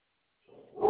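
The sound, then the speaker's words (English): A dog barking once, a short bark that swells abruptly and is cut off at its loudest point. “Sorry, that's my dog.”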